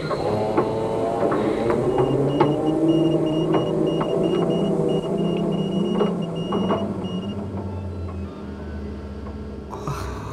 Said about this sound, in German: Ich starte den Motor. Ich übernehme die Lenkung. Aha. Und fertig zum Tauchen.